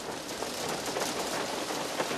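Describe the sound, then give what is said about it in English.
Hail falls during a tornado-bearing storm, a dense, continuous pattering hiss of many small impacts with no pauses, fairly quiet and even in level. “It's hail, frozen rain that can get as big as a baseball.”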